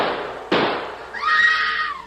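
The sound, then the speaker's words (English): Gunshot sound effect in a radio drama, set in an old man's house at night: a sharp, loud bang with a quickly decaying burst, followed by a wavering, high tonal cry that fades out. “Great Scott! Shooting in old Eli's house!”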